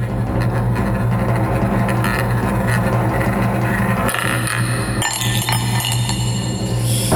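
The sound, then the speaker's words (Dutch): A roulette wheel spins while its ball clatters in a steady run of light rattling clinks, then a few sharper, louder clicks stand out near the end. “geef een slinger aan dat request roulette wiel. En dan gaan we gewoon een poging wagen.”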